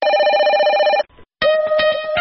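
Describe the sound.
Electronic telephone ring used as a jingle for a listener call-in segment, two bright, loud tonal bursts separated by a short pause.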